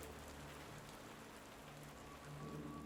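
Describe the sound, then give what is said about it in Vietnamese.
A sudden rain patters on a domed roof in a soft, dense, continuous wash of drops that stays faint and even, swelling slightly near the end. “Ngoài kia, một trận mưa bất ngờ đổ xuống, mái vòm kêu lên rào rào.”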